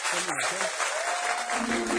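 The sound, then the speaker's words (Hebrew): Audience applause for musicians on stage at a singalong gathering: a dense, steady wash of clapping that holds for the whole clip, with some voices mixed in near the start. “עשו להם הרבה הרבה כפיים, מגיע להם.”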